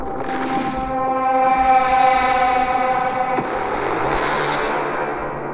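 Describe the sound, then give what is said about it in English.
A wailing, siren-like harmonic tone opens a monster movie trailer. It is loud and sustained, with a sharp crack midway and a brighter burst of noise toward the end. “We have a new trailer to watch, and we are about to kick it off right now. Here we go Godzilla X Kong, The New Empire. Official trailer 2 on YouTube.”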